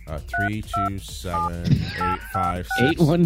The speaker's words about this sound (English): another quickie here on dialing instructions. So you grab you grab an outside line, and then you, what's our number?